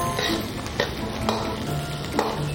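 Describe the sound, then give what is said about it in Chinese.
Sizzling stir-fry of garlic, green garlic, Guizhou fermented pickled chili and chopped green peppers in a pan, a steady hiss broken by a few short clinks and scrapes of the spatula. “煎到外面金黄了，然后现在取出，放蒜、青蒜，放一勺贵州的糟辣椒，提鲜，放切好的青椒”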